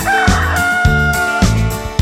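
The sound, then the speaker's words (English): A rooster crowing on a farm: one long, loud, drawn-out crow with strong, steady harmonic tones. “And what does the rooster do? What does the rooster do? He says,”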